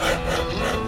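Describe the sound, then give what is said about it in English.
Rasp filing the wood of a cricket bat as it is shaped by hand, a steady, coarse scraping rub that runs on without pause. “That's the sound of a cricket bat being shaped.”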